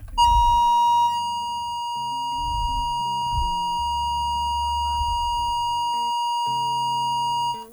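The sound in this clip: A phone line tone from a call that fails to connect: a steady, high, pure beeping tone holds throughout. Fainter, lower, shifting sounds run underneath it.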